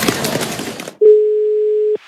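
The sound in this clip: A telephone ringback tone for an outgoing call: one steady, mid-pitched tone lasting about a second, following a burst of louder mixed sound, then silence.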